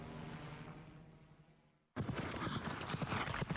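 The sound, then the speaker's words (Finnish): Horses' hooves clatter in many rapid hoofbeats at city trotting races held in a fortress. A fading sound dies away first, then the hoofbeats start abruptly and stay loud to the end. “Hevoset valtaavat Lappeenrannan linnoituksen 5-6. Kesäkuuta.”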